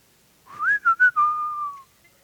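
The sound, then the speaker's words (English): Human whistling of a single short phrase, heard alone. It glides upward, breaks into two quick chirped notes, then settles into a long held tone that sinks slightly before stopping. “And you can hear the whistling in the background.”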